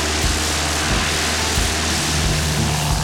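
A propeller airplane flying from Vancouver Island to the interior of British Columbia gives a steady, loud engine drone with occasional low throbs and no voices.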